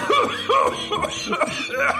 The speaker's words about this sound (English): The girl with emphysema goes coughing.